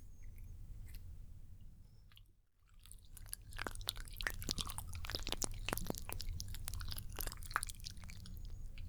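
An ear being rotated and gently pulled during an ear massage: soft, crackly rubbing and crunchy rustling with many small irregular crackles, briefly quiet early on, then steady and busy to the end.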